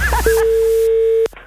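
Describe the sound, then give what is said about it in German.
A telephone dial tone on a radio station call: one steady, pure mid-pitched tone holding for about a second, then a sharp click, after brief speech at the start. “Das Telefon.”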